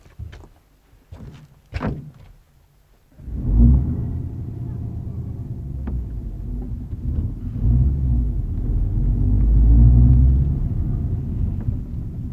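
A car: a few sharp door thunks, then the engine comes in with a low, steady rumble that carries on as it drives, swelling slightly toward the end.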